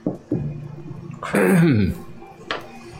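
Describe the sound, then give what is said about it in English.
Someone clears their throat in a few rough, gravelly bursts. The loudest and harshest comes in the middle, and a short final rasp follows. “You do that, you hear a sound of someone clearing their throat.”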